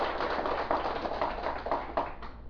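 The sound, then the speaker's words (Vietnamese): Muffled, steady applause rises from the audience at a Vietnamese Buddhist dharma talk on listening. The clapping is faint and continuous, with a few slightly stronger bursts near the end. “Xin quý vị vỗ cho tràng tay.”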